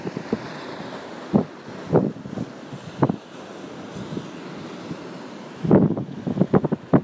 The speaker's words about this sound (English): If you listen closely, you can hear the waves crashing behind me.